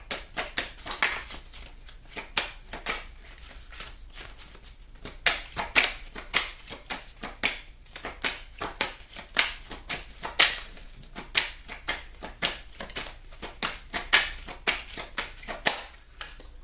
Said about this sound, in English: All right, let me go ahead and take some cards. May I have some cards, please?